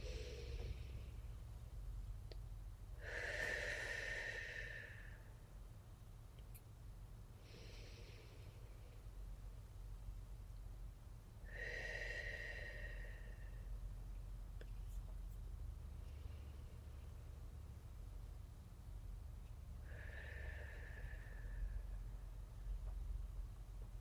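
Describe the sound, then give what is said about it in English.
Slow guided breathing, air drawn in through the nose and released out through the mouth, several soft airy breath cycles separated by long quiet gaps over a low steady hum. “we're going to breathe in through our nose and out through our mouth. Let's do that together right now.”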